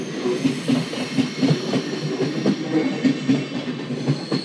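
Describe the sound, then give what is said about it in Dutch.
An international train made up of a mix of different wagons rolls past with a rhythmic clickety-clack. Many regular wheel beats sound over rail joints above a continuous rumble, with no voices. “Ja, die gaat naar, deze gaat waarschijnlijk naar Wenen. Bonte verzameling van wagons.”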